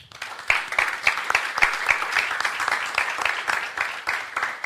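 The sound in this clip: Audience applause welcomes a speaker on a panel at a debate about Brexit. The clapping swells quickly and then holds as a steady, crisp patter for several seconds.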